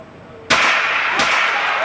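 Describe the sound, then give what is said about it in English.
Two sharp cracks from a starter's gun at a sprint race start, the second a recall shot after the first, each hitting with a bright, ringing bang over steady background noise. “The gun goes off again, calling the runners back to the line.”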